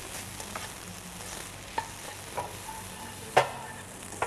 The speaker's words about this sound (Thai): ผัดให้มีความหอมขึ้นนิดนึงนะแล้วก็ปรุงรสด้วยซอสพริกนะคะ